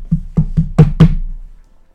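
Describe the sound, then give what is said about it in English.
Loud, hollow knocks strike a door, five evenly spaced thumps in quick succession, alone with no voices. “He knocks three times on the door.”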